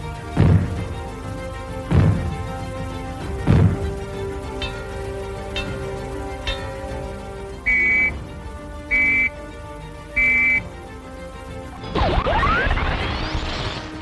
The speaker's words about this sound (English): If the fallout warning sounds are heard, they will be like these.